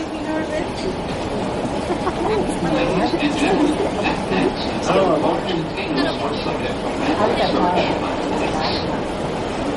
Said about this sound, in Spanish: Al poco en el metro el hombre intenta descansar en un asiento del vagón.